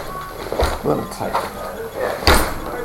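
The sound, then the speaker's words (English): A stiff folding chair is folded shut, giving a few creaks and rattling clunks. A louder snapping clack comes near the end. “Let us open up the chair. Sounds like this. So far, so good. Now fold it. Seems a little tight.”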